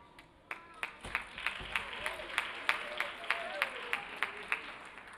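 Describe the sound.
Audience applause at a culture and music festival, welcoming a dance instructor before a hip-hop dance performance; steady clapping with many regular, sharp peaks that keep a lively, even pace.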